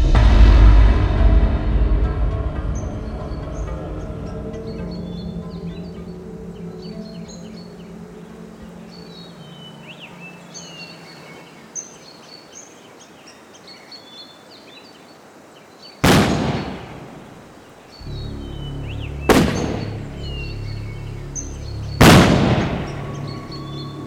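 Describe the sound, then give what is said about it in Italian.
Pistol shots fired in series at a fishing spot in the early morning: a few sharp, loud bangs break a long quiet stretch filled with faint high chirping. “Intorno alle sette e un quarto, il silenzio del luogo viene spezzato da quattro colpi di pistola”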